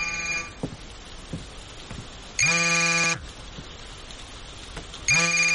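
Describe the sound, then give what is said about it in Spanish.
A mobile phone rings on the floor beside a bed: a bright electronic ringtone in short, loud tonal bursts separated by quiet gaps, repeating with the same melody each time. “El móvil de Sara vibra en el suelo junto a la cama, con una foto de Isaac en la pantalla.”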